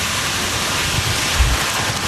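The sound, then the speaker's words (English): Rain and strong wind from a Category 1 hurricane pounding Hawaii's Big Island with 75-mile-per-hour winds form a steady, dense, loud roar of rushing noise with no distinct events. “The Category 1 storm pounded Hawaii's Big Island with rain and 75-mile-per-hour winds”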